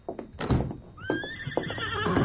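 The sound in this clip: The horse Silver lets out a long, high whinny with a wavering, trembling pitch, following a few dull thuds.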